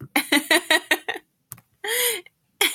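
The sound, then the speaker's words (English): A person's throat making odd noises and clearing: a quick run of short voiced, grunting bursts, a sharp click, then a longer rasping, croaky sound and one more burst, with no talk. “This is why I always mute myself, because my throat makes so many weird noises like that.”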